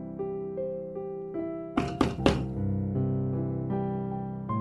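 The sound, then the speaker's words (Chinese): Three quick, hollow knocks on a door cut sharply through soft sustained music, then the music carries on alone. “叽叽喳在叩门，没有回应。”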